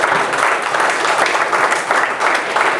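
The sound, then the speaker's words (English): A church audience gives a round of applause: loud, dense clapping continues steadily with slight swells, with no talking over it. “Give him a hand of applause.”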